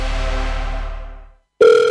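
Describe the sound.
A telephone rings for an incoming call. The steady electronic tone starts abruptly near the end, after a fading tonal sound and a short silence.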